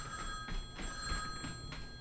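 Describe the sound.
A telephone rings in a laboratory office, its bright electronic bell sounding in several repeated bursts. The rings stay fairly faint and come alone, with no talk over them.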